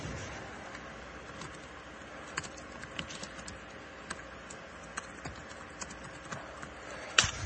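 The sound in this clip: A title being typed on a computer keyboard: soft, irregular keystroke clicks scattered over a faint steady hiss, with one sharper tap near the end.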